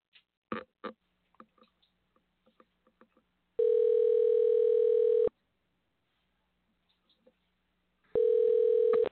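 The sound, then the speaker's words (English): A telephone call is placed to a guest: soft scattered button clicks come first, then a long steady ringing tone, a few more faint clicks, and a second ring tone near the end. “All right, let's put this number in here and give him a call. All right, just bear with me a second. We'll dial him up.”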